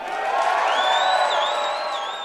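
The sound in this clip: A jubilant crowd cheers at an election-night victory speech in South Dakota, a sustained roar of voices and whoops with a high whistle rising through it.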